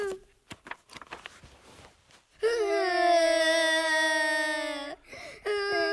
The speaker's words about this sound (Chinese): 你哭什么呀？ 哎呦，你们两个怎么一起哭啊？